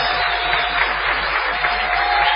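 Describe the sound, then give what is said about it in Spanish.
An audience gives an ovation of steady, dense applause welcoming a guest onto a small stage, continuous clapping for over two seconds with no voices over it. “vamos a saludar con una ovación inolvidable a Patricio Barton”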